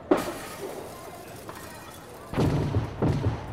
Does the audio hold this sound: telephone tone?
no